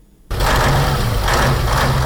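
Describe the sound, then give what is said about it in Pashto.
A truck engine runs while the vehicle carries about one and a half tonnes of cement over its legal load, heard from inside the cab. A steady, loud rumbling drone starts abruptly after a brief quiet moment. “زه له داسې یو موټر چلوونکي سره په موټر کې ناستم چې له قانوني وزن یې یو نیم ټن زیات سیمنټ بار کړي.”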